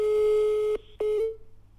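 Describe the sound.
A telephone ringing tone sounds on an outgoing call to a mother: a steady mid-pitched tone, a brief break, then the tone again before it fades out.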